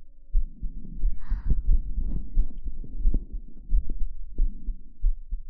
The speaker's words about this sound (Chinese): 我的心跳好平缓啊。